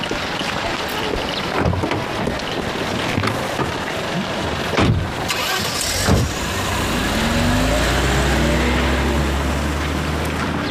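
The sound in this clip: A police car engine starts: a few sharp knocks come over rushing wind noise, then a low engine rumble sets in and its pitch swells and falls as it revs.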